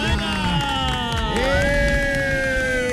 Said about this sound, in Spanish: Un aplauso, por favor, para Herrera.